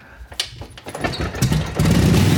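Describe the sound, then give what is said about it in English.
A restored World War II-era motorcycle engine starts: rough cranking and sputtering give way to a steady, louder running engine note that holds to the end. “Sometime around 2000, he did a thorough restoration, and you can be sure of one thing, this bike runs perfect. It still runs? Well, of course it does. Watch this.”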